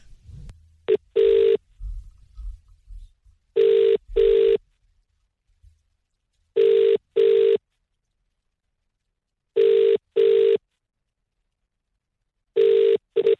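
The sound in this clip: Ringback tone of an outgoing phone call after a number is dialed: five evenly spaced double-pulse rings, loud and steady in pitch, with faint low handling noise at the start.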